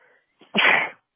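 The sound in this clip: A single sharp human sneeze, introduced by a short faint intake and then bursting out loud and noisy for about half a second before cutting off abruptly into silence.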